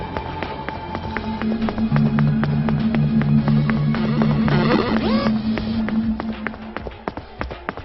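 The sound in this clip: Running footsteps at Orianta Stadium make a fast, steady patter of many sharp steps over a low continuous hum, fading slightly toward the end.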